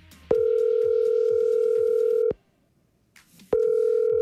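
A phone call's ringback tone plays while a relative is dialled from an app. A steady mid-pitched tone holds for about two seconds, stops for a short silence, then starts again, with faint clatter underneath.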